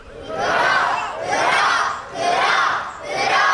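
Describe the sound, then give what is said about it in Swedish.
A crowd gives a fourfold cheer for a princess: four loud, even group shouts in a regular rhythm, each swelling and falling away before the next. “Och vad brukar vi göra efter det här då? Ett litet stort fyrfaldigt lever, självklart. Nu kommer leven. Prinsessan lever.”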